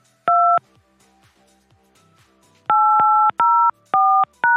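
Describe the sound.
Touch-tone keypad beeps as a conference call access code is dialed: one short dual-tone beep, a pause with faint background, then a quick run of several crisp beeps of varying pitch.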